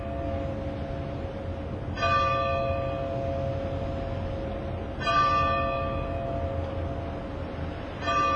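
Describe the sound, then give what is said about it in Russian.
Church bells ring in three clear strikes about three seconds apart, each bright tone sounding over a constant low rumbling background. “Колокола — это голоса легенд. Отлитые в земле и вознесенные в небо, колокола поют песни, исполненные высокого смысла, понятные каждому.”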